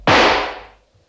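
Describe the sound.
A rifle gunshot cracks out once, loud and sharp, with a short decaying tail and nothing else around it.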